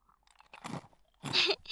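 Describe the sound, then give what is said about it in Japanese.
Crunchy chewing of dry pet food bought at a convenience store: two bursts of crisp crunching separated by a quieter gap, with no talk. “ご飯だよ。お腹空いたでしょ。コンビニでドライフード売っててよかったよ。”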